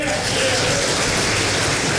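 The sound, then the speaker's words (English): Audience applause at a Republican political gathering in Kentucky, a dense, rain-like roar of many hands clapping, loud and unbroken throughout. “If you're thankful for Senator McConnell, can you please stand up and give some applause?”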